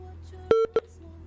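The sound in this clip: Telephone call connecting on the line: two short electronic tones, the first longer than the second, over a low steady hum.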